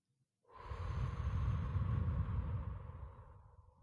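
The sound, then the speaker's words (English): A deep breath in and out, taken during a guided relaxation exercise with one hand on the heart and one on the belly: one long, steady, breathy rush that swells and slowly fades, with no talking. “I want you to take a moment to take a deep breath in and out.”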